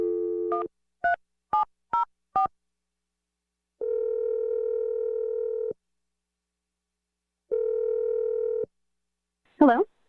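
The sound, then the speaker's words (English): A phone number being dialed: a quick run of touch-tone keypad beeps, then two long, steady ringing tones separated by silence, and a brief voice answering at the very end. “So here we go. I'm going to dial the number.”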